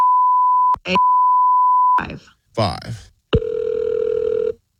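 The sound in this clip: Telephone tones play as a call is placed: a steady beeping tone, a click, the tone again, a brief voice, then a louder sustained buzzing tone.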